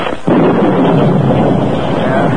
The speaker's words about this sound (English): As he rode, a sudden storm broke.